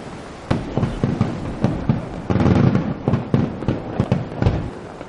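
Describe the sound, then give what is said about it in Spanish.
Fireworks bursting in the sky at nightfall by the seashore: many sharp booming cracks in an irregular series, some overlapping into a denser rumbling cluster partway through, loud and with no voices. “Fuegos artificiales en el cielo.”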